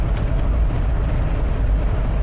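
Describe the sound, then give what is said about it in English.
Steady low road rumble from a Jeep driving down a highway, a continuous, even drone with no distinct events and no talking. “I'm driving down a highway, talking to myself in my Jeep.”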